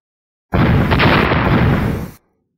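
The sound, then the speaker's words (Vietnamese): A loud explosion rumbles up from underground amid a red glow in a fantasy scene, one sustained, booming roar that starts abruptly, holds heavy for under two seconds, then tapers off quickly into silence. “Từng trận thanh âm nổ vang từ dưới đất truyền đến”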